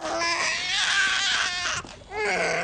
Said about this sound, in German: ein Schreikind zur Welt gebracht. Es hört und hört nicht auf.